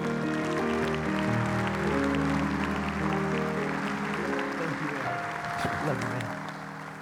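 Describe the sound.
An audience at a church gathering applauds to welcome a guest speaker. The clapping is steady and sustained for several seconds, then fades toward the end.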